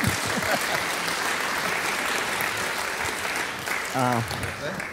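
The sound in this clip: Audience applause welcoming a speaker at the start of a talk introducing a series on the Minor Prophets, a steady, dense clatter of clapping that holds evenly through the whole clip.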